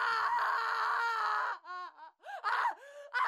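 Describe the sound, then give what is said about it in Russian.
A child screams from a nursery at night: one long, shrill, sustained wail, then several shorter, broken, high-pitched cries in quick succession. “Но когда Рита уже стала погружаться в освободительную дрему, из детской, где спала Лика, раздался истошный крик.”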